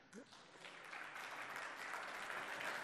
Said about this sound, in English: Thank you for clapping for me.